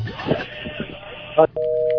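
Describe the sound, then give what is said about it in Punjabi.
A phone call is cut off: after a brief voice, a steady mid-pitched disconnect tone sounds and holds to the end. “Hello, ਉਧਰੋਂ ਬੋਲਣ ਲੱਗੇ ਤਾਂ ਉਹਨਾਂ ਦੀ ਕਾਲ ਕੱਟ ਗਈ।”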